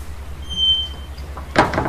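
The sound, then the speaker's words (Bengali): A restaurant door opens as an elderly man steps inside: a thin, high squeak is followed by a sharp clunk and a brief rattling clatter. “খেতে খেতে রেস্তোরাঁর দরজার দিক থেকে একটা আওয়াজ পেয়ে আমি ফিরে তাকিয়ে দেখলাম বেশ বয়স্ক এক ভদ্রলোক দরজা খুলে ভিতরে আসছেন”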